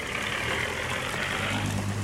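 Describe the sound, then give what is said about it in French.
A car approaches along a road in wind and rain, heard as a steady, rumbling engine drone with a broad hiss. The level stays even throughout and no voices are heard. “une voiture! Eh oui, pas de doute, elle vient dans ma direction.”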